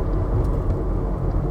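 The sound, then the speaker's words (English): Steady low engine and road rumble from police cars driving around nearby, a continuous dense drone without clear individual passes. “There's a few cop cars driving around here”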